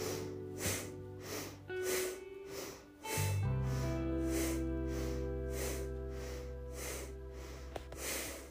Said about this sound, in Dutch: Dus je buigt het rechterbeen en pakt deze met beide handen vast, waarbij je wervelkolom recht houdt en je borstkas breed en vooruit. Doe nu in deze houding 7 bastrika's. Komt-ie.